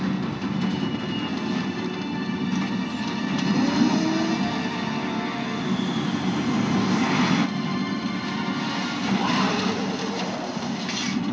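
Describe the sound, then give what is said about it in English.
A landing airplane gives a steady, loud roar of engine and rushing noise that holds at an even level throughout, with no voices. “Well, the plane landed, so there's that.”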